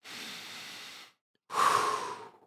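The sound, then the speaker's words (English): Slow, deep breaths taken as part of a relaxation exercise: two long, airy breaths separated by a short silence, the second louder and fuller than the first, with no talking. “Take just a few nice, slow, deep breaths.”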